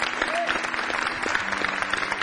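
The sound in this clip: Audience applause welcoming the first singer at a performance: a steady, dense patter of clapping that runs evenly throughout, with a faint tonal hum underneath.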